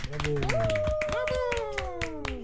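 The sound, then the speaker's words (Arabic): Clapping for a child: a few steady hand claps beat in rhythm while a voice carries on over them. “صحيت تصفيق على جميلة.”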